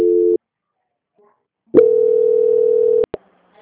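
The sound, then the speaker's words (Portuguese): A telephone line tone plays while a call is transferred: a short steady beep, a silent gap, then a longer loud tone at the same pitch, ending in a couple of sharp clicks. “Só um minutinho que eu vou transferir a senhora para o setor de qualidade.”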